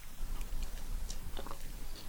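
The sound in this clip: Quiet chewing and biting of waffles, many soft crunchy bites and mastication sounds in an irregular rhythm, with no talk.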